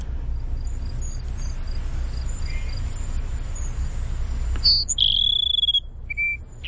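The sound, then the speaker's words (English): Cassin's sparrow song: a high, thin run of rapid chirping notes, then a couple of clearer, lower sustained whistles near the end, over a steady low hiss. “All right, that's the Cassin Sparrow.”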